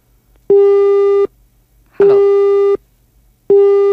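Telephone busy tone after a call cuts off: three identical steady beeps, each under a second long, evenly spaced by short gaps.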